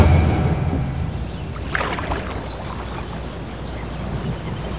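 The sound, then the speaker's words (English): A canoe being pulled ashore, heard as a continuous wash of water and rough scraping, with a brief, louder scrape near the middle and no voices. “pulls the canoe ashore.”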